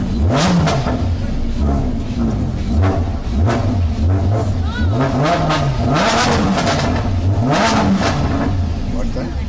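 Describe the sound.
A Lamborghini engine revs hard in many rising and falling surges, one after another. The revving stays loud throughout, with people talking over it.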